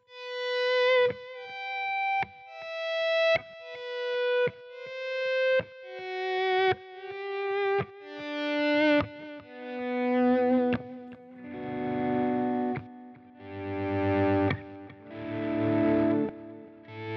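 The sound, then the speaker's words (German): Distorted electric guitar run through an effects unit's auto volume echo setting. A series of single notes each swell in from silence with echoing repeats, then gives way to fuller, louder sustained chords toward the end. “ich mache mal den verzerrten. Auto Volume Echo, das ist das zweite von unten.”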